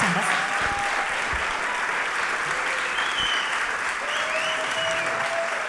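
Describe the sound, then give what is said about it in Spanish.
Audience applause at a blues festival: dense, steady clapping that fills the whole stretch at an even loudness without letting up. “un fuerte aplauso”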